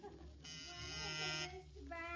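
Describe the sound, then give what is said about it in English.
An office intercom buzzer, wired backwards so it sounds in the boss's office rather than the secretary's, gives one harsh, sustained electric buzz lasting about a second, with a brief voice after it. “When you put that buzzer system in, you done got it in backwards. You put the button in her office and the buzzer in here in yours.”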